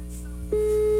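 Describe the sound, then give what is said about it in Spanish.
A telephone call being dialed gives way to a steady, single-pitched ringing tone that starts about halfway through and holds unbroken to the end over a low hum, with no talking. “Márcale a la Loba. Estoy marcando a la Loba.”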